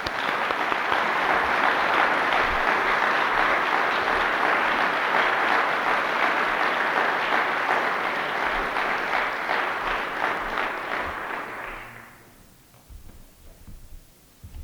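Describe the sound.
A conference audience applauds to welcome a speaker. Dense, sustained clapping continues for about twelve seconds, then quickly thins out and fades to a few scattered claps.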